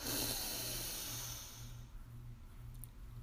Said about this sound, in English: So deep breath in, expanding your belly.